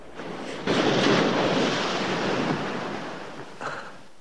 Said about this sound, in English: She tumbles down the rocky cliff face and lands in the water below. Dave steps out on the balcony and looks down at the ocean.